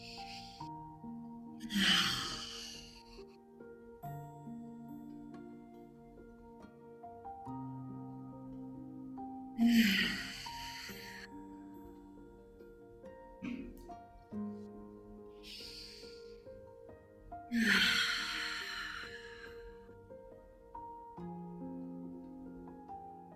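Deep breaths taken during a guided breathing practice: three long, loud, breathy inhalations, evenly spaced about eight seconds apart, over a soft, sustained musical drone.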